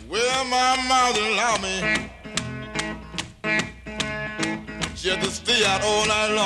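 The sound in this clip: An early Detroit blues recording features a man singing in a rough, expressive voice, broken up by sharp plucked guitar strikes between the vocal lines.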